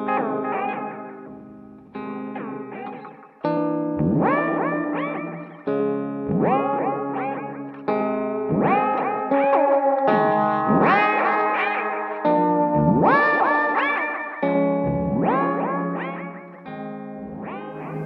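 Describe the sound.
An effects unit's stock echo algorithm shapes a run of played notes into loud, quacking filter swells with trailing repeats, each note sweeping upward in a steady series, heard alone.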